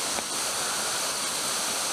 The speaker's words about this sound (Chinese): 瀑布的地方了，好久都没到。